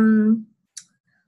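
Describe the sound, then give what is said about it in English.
A single crisp click of a pen, short and sharp, following the tail end of a voice and then silence. “I clicked my pen, so I'm ready to write them down.”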